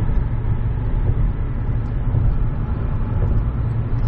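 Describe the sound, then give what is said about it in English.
A car drives along the road with a steady, fairly loud low rumble that runs without a break and with no talk. “Well, I am driving and just realized this is probably unsafe that I'm doing this”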